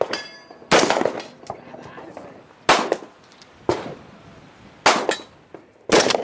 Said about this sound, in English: I brought an AR. I got my 9mm and I got his 22 rifle.